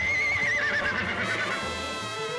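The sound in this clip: A horse neighing: a loud, wavering whinny that drifts slightly lower in pitch, over a steady low rumble, with no voices.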